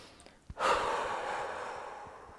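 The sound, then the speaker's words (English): A deep breath with a long exhale, taken as a calming breathing exercise: a brief sharp intake, then a steady, breathy outflow lasting about two seconds that slowly fades, with no talking. “You can also take 10 deep breaths, focusing particularly on the out breath.”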